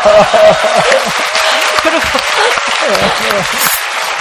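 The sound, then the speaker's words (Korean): Audience applause of encouragement, dense, steady clapping from a crowd that carries on throughout, loud and even, with a voice faintly audible beneath it. “저한테 격려의 박수를 좀”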